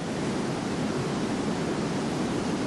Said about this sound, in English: It's the sound of the awesome power of 225,000 cubic feet per second of water rushing over the Niagara Falls.